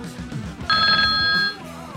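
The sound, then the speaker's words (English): A telephone ringing on a call-in line: one steady electronic ring of several bright, sustained tones lasting under a second, louder than the low background around it. “checking out the phones ringing. How was that for timing?”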